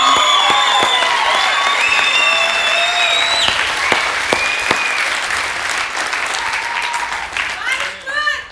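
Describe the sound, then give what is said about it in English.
Church audience cheering and applauding, loud, dense clapping with high whistles and shouted cheers over it, tapering off toward the end. “Oh, come on. You cheered for the Broncos louder than that.”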